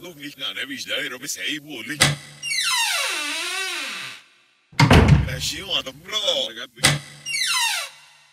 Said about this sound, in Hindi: इसे अपना वहम समझकर जैसे ही उसने कमरे का दरवाजा बंद किया कि लगभग तुरंत